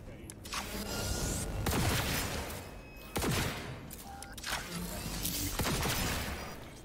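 Video game gunfire from a weapon that shoots through walls, fired in a special console mode: several heavy booming shots over a dense, continuous game soundscape.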